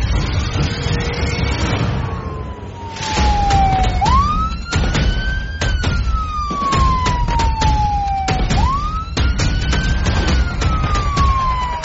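Police car siren during a chase: a loud wail that climbs quickly and then falls slowly, repeating in long cycles, over engine rumble and many sharp clicks and knocks.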